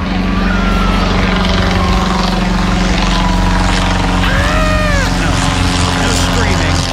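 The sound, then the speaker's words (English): The engine of a Wright B replica flyer aircraft gives a loud, steady droning hum with a continuous low rumble that holds throughout. “that's actually the sound of the Wright B replica flyer. I think it may have crashed a number of years ago. But that is actually the sound of the Wright B flyer”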